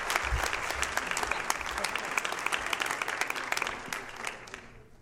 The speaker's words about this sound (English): So would you put your hands together and welcome my good friend